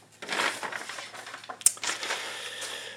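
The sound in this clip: Sheets are crumpled in a run of dry, irregular crackles and rustles, fairly quiet overall, with one sharper snap partway through.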